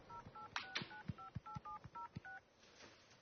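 Touch-tone keypad beeps as a telephone number is dialed: a rapid, evenly paced run of many short two-note beeps, each clipped and bright. A faint hiss follows, and no one speaks.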